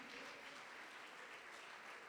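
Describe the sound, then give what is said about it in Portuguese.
Faint applause from an audience clapping during a church worship service, a dense, steady wash of hand claps that holds an even level throughout, with no clear speech. “Bata palmas para Jesus.”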